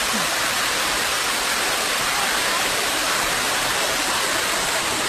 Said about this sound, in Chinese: 我们现在到了这个九潭八瀑这儿啊，就可以听到这个瀑布的声音，小瀑布，我们来听一听这个声音。